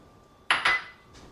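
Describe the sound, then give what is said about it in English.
Metal clanks as zucchini and cheese go into a pot of cheesy Mexican lentils, black beans and rice: two sharp, ringing knocks in quick succession, followed by a softer third tap, with no talk. “the zucchini, and the 1/2 cup of cheese that you've set aside. All goes in.”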